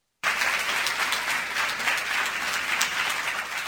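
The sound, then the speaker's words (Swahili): Applause breaks out abruptly as Barcelona stars Andres Iniesta and Marc-Andre Ter Stegen enter a room of seated children, a dense burst of clapping that holds steady and loud for several seconds. “Nyota wa Barcelona Iniesta na Ter Stegen wanaingia katika chumba hapa walimoketi watoto wenye hamasa, shangwe za makaribisho”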